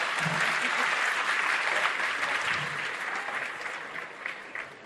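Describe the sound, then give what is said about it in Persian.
An audience applauds after a joke about Shirazi salad being registered abroad, a dense, steady clapping that stays loud throughout and eases slightly toward the end. “الان برای سالاده دست زدید”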